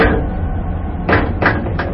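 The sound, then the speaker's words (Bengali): A glass cage door closing gives three short, sharp knocks, evenly spaced and bright, over a steady low background rumble. “কাঁচের খাঁচার দরজা বন্ধ হওয়ার শব্দ এটা।”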